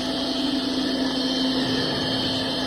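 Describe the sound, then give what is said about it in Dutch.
Steady roar of a converted household vacuum cleaner switched on and running without its bottle, a loud continuous airy rush with a constant low-mid whine that holds unchanged throughout, with no voices. “In de stofzuiger. Wat gebeurt er nu als we het apparaat aanzetten? Doe het nu even zonder fles.”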